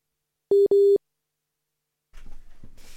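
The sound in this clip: A telephone line tone while a call to São Tomé is being reconnected: two short, steady beeps in quick succession, then silence and faint line noise.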